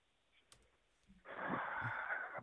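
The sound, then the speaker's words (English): A single deep breath, long and airy, swelling loud after a quiet stretch and holding steady for over a second before trailing off. “I'm taking a deep breath here.”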